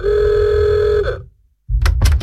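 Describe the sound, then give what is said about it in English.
A car horn honks in one long, steady, sustained blare, sounded impatiently by a man waiting outside to pick up his date; it cuts off, and after a short silence a few dull thumps follow. “Who's that rude person honking like that?”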